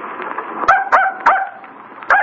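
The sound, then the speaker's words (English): A dog barking during a tense, chaotic scene, four sharp harmonic barks spaced irregularly over a steady background murmur. “Get that dog out of here. Stop it.”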